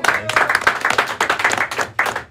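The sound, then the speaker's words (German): Audience applause during a quiz on Swiss cantons, uneven bursts of clapping that swell and briefly dip a few times, lively and fairly loud. “Wieder ein Applaus fürs 2-0.”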